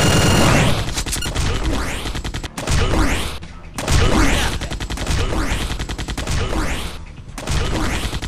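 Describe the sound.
Rapid gunfire in a video game, loud fusillades of automatic shots in several bursts separated by brief pauses, with sharp cracks and booming impacts layered together.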